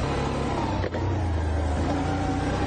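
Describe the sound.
A Can-Am all-terrain vehicle's engine drones as it climbs a slope under light throttle, holding a loud, steady tone with only a brief dip partway through.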